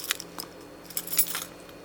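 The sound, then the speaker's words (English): A bunch of keys jangling: faint, bright metallic jingles come in a few short bursts, with a busier cluster of clinks toward the middle, heard alone over a quiet background. “I've got some keys here”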